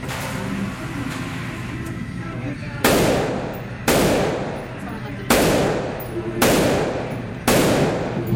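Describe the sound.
Rifle fire during a shooting demonstration: after a noisy lead-in, about five loud, sharp reports come roughly a second apart, each with a ringing tail that decays.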